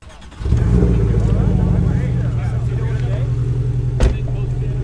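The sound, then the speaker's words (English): Steady engine drone of a 718 Boxster sports car being driven, rising sharply after a brief quiet start and holding a loud, even hum throughout, with one short sharp knock near the end. “we take a drive in a 718 Boxster.”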